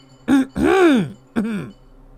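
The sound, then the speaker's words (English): A person clearing their throat: three rough, guttural bursts, the middle one longest, heard alone. “Rising to your feet, you clear your throat.”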